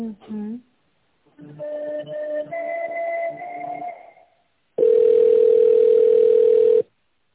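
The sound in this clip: Telephone line tones during an office call being transferred to a reception desk: after a brief voice, a short melodic run of electronic tones plays, then one long, steady, loud beep lasting about two seconds.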